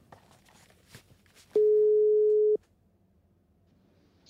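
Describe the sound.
A telephone ringback tone sounds while a call is being placed: one steady, mid-pitched tone lasting about a second, with faint handling noise before and after.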